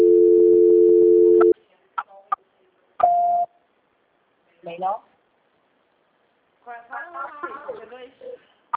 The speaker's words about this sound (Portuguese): Asterisco 2, o Ramal. Asterisco 2, ele vai falar. Transferência.